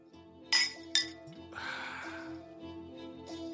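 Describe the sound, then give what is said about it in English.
Glasses clinking together in a toast: two bright, sharp clinks in quick succession, followed by a softer, sustained airy wash beneath a steady low hum. “Let's go ahead and clink this up, fellas.”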